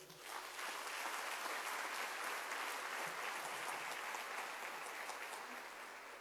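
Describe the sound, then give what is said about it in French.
Sustained, dense applause from an audience celebrating a priest's appointment as rector of a basilica with the rank of bishop. The clapping holds loud and steady for the whole stretch, easing off only slightly at the end. “Est-ce qu'on ne peut pas acclamer ça?”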